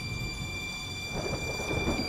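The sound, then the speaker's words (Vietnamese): Light drizzling rain falling on a cold, moonless night, a steady unbroken hiss over a low rumble. “Đêm nay trời mưa lâm thâm, không có trăng cũng chẳng có sao”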